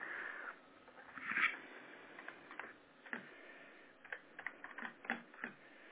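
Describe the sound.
Computer keyboard typing as details are entered into a system: faint, scattered key clicks in irregular short bursts, sparse at first and busier toward the end, with no voices.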